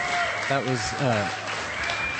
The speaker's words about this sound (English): Wow, what a set. The crowd is roaring. They're going bananas.